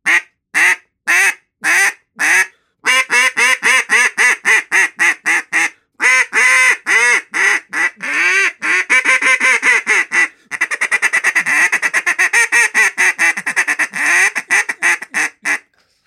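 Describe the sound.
A single-reed duck call blown to imitate a duck: many loud, raspy quacks, first in spaced single blasts and then in fast, rolling chattering runs with a wide range of pitch, heard alone.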